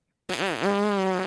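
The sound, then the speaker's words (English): A voice imitates a fart with one sustained, buzzy raspberry lasting about a second. Its pitch dips briefly, then holds steady. It is loud and heard alone. “Like when I fart, literally, it's like,”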